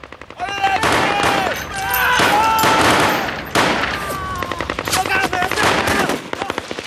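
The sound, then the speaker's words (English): Rifle fire is traded between Marines and fleeing insurgents in a narrow alleyway: loud, rapid automatic bursts and sharp single cracks come in uneven clusters, with raised voices heard between the volleys. “They turn to let off a few rounds. The Marines return fire.”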